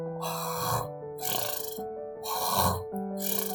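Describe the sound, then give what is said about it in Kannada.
Person snoring on the back seat of a bus, rhythmic breathy snores repeating about four times over faint, sustained tones. “ಎಂದು ಗೊರಕೆ ಹೊಡೆಯುತ್ತಿದ್ದ.”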